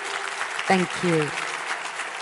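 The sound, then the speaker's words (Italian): Audience applause for the guests at the close of a stage event, a steady, fairly soft wash of clapping with a brief voice heard over it. “Un bel applauso ai nostri ospiti.”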